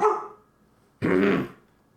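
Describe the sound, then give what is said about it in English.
A dog barks twice: a short bark, then after a pause a longer, louder one. No one talks. “Sorry for the dog barking.”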